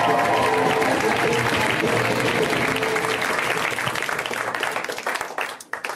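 Dense, steady audience applause greets a comedian being introduced on stage, with loud clapping at the start that thins and fades over the last second or so.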